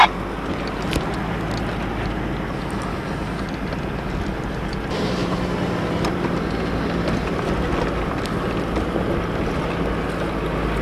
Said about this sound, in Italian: decide di affrontare la salita con le ridotte, cercando di mantenere costantemente la velocità minima di galleggiamento